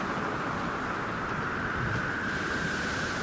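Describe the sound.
Ocean waves crash and roar around a sailing brig that has struck a rock in a storm. The surf and wind form a steady, dense, continuous rush with no talk.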